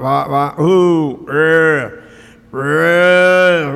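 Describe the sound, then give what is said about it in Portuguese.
Cattle and calves bawl in a corral at milking time, giving several loud, drawn-out lowing calls with rich harmonics, separated by short pauses. “no curral tirando leite, chamando a vacada para tirar leite, a bezerrada berrando”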